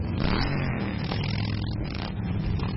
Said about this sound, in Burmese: ဆိုင်ကစီးသူ9သိန်းလောက်ဟာမြို့ကိုလှည့်လည်မောင်းနေတာကြောင့်မိုးချိန်တန်လို့လည်းကြားနေရပါတယ်။